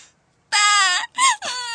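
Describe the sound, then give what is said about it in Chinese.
A woman crying over the telephone, with three strained, wailing sob bursts whose pitch wavers up and down, the first the longest, heard loudly and without other talk. “芳芳啊，你别哭，你别哭啊！”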